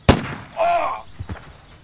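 A single sharp, loud shotgun blast cracks out during a hare hunt in an audio drama. A brief voiced cry follows, then fainter rustling.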